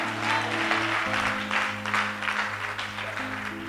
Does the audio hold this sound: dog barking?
no

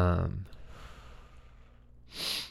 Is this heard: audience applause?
no

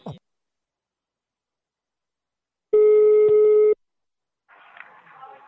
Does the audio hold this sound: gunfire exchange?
no

